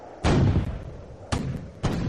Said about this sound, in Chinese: 突然间，地面上响起了高射炮声，密集的火力开始向渐渐远去的运输机射击。